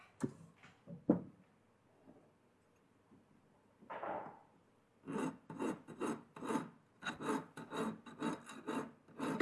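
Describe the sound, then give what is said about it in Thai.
Rasping strokes of a large file smoothing a welded metal edge: a few sparse scrapes at first, then a steady run of regular, rough back-and-forth strokes through the second half. “ขั้นตอนต่อไปเราก็จะต้องมาทําการตะไบนะครับขอบให้มีความเรียบแล้วก็ตกแต่งให้ได้รูปทรงนั่นเองนะครับเราเริ่มต้นโดยการใช้ตะไบตัวใหญ่ก่อนนะครับ”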